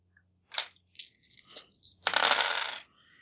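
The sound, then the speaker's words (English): Dice rolled during a game: a few light clicks and knocks, then a longer rattling clatter as they settle, fairly quiet with no talk. “Dice.”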